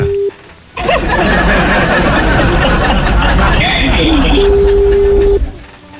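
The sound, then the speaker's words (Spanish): A steady, mid-pitched telephone ringback tone sounds while a call is placed to someone. One short burst comes at the start and a longer one near the end, partly buried under loud crowd chatter and talking. “A ver, ya estamos marcándole. Vamos a ver. Y conteste, que conteste.”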